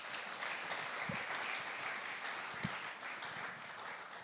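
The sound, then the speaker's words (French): Audience at a bilingual life group gathering clapping to welcome guests onto the stage, a soft, steady patter of many hands with a few sharper claps standing out. “So just give them a clap.”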